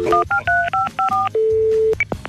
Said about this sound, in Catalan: Només hi ha una solució, trucar als nostres amics, que sempre esperen la nostra trucada diària del 010.